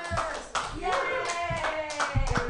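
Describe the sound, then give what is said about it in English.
Audience clapping for a comedian coming up at an open mic: a brisk, dense round of applause with a voice calling out over it. “Put your hands together, everybody, for Brady Pearson!”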